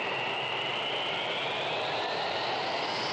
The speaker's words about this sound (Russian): Ту-154Б взлетает.